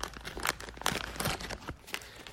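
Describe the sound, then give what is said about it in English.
A 1989 Topps baseball card pack being torn open: a quiet run of several sharp crinkling and tearing bursts from the wrapper, with no talk. “So let's take a look at the pack. And let's open it.”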